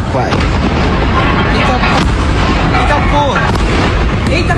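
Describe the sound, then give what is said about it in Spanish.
Underground explosions in Itaquaquecetuba, São Paulo state, Brazil, blow sewer manhole covers into the air after a fire at a solvent and resin chemical plant. A loud, dense, continuous roar runs throughout, with a few sharper blasts standing out. “Explosiones bajo tierra sorprendieron a los habitantes del municipio de Itaquaquecetuba, en el estado de Sao Paulo, en Brasil.”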